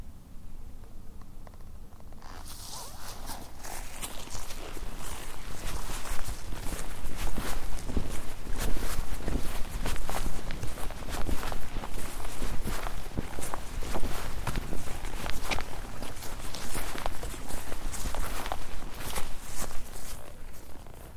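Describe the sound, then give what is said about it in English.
Steady footsteps walking among trees, a continuous run of soft crunching steps carrying on throughout after a brief quieter opening, with no voices. “Man, that sounded like walking.”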